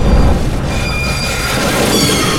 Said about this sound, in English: As the train to Yuma hurtled across the desert, Deputy Hayes